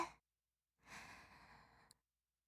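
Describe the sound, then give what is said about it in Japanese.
A slow, deep breath during a guided breathing exercise, drawn in as a soft, airy rush that lasts about a second. It follows a brief earlier breath and ends with a small click. “深呼吸してみましょう。そう。ゆっくり息を吸って、”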